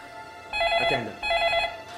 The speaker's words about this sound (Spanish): Luego de varias horas de tensa espera, la familia Dinis recibe otra llamada.